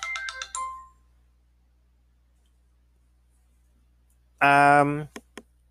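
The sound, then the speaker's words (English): A mobile phone ringtone goes off in the background: a quick run of bright chiming notes, a long silence, then a louder, buzzy tonal burst near the end. “I'm going to go wind down and apparently answer my phone that keeps going off in the damn background.”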